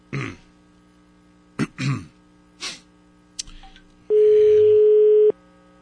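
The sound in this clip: A single steady, buzzing ringback tone about a second long signals an unanswered phone call. A few brief throaty noises and clicks come before it.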